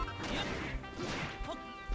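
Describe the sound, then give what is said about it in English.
Video game combat as Malroth fights the Drakki and slug enemies: several sharp smashing and whacking hits with swishing swings, over a steady tonal background. “Oh, here come the Drakki and the slugs. Malroth's gonna fight him.”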